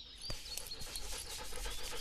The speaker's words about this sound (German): Was sagt mir unser Hund?